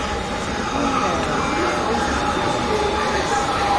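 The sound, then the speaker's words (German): A train pulling into a station, heard as a steady, broad rumble and rush that holds at an even loudness from start to end. “Ah, da kommt schon die Bahn.”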